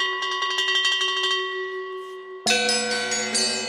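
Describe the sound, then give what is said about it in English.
Many bells from a wide variety of cultures and historic periods sound in a percussion piece for metals: quick repeated bright strikes ring over sustained tones, then a loud, dense cluster of bells enters at once and keeps ringing. “The piece is scored exclusively for metals and features more than 125 bells from a wide variety of cultures and historic periods.”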